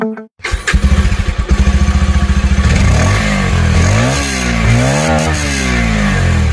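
A Bajaj Pulsar 150cc motorcycle engine starts with rapid pulsing, settles into a chugging idle, then revs several times, its pitch climbing and dropping in loud repeated sweeps.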